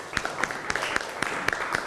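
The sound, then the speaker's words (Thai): Children clap for themselves during a lesson, giving loose, fairly faint hand claps in a rough, steady rhythm throughout the moment. “เก่งมากปรบมือให้ตัวเองหน่อย”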